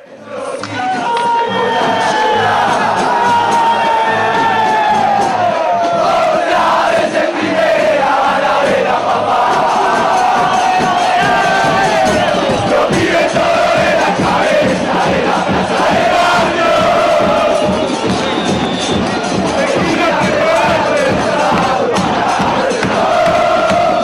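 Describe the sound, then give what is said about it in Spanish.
A large football crowd loudly chanting the promotion song of a second-division team moving up to the first division. The massed singing and shouting are continuous and dense, with drums beating underneath throughout. “es la típica canción que de ascender, o sea, es la canción del equipo de segunda que va a primera, y suena así.”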